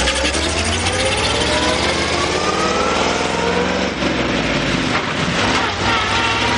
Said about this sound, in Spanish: Se montan en el coche fúnebre y Gina comienza a llorar.